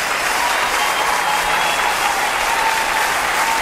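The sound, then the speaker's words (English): Audience applause for a fantastic jazz orchestra musician: a thick, continuous wash of many hands clapping, steady and loud from start to finish. “On applaudit Billy Garrett, a fantastic musician.”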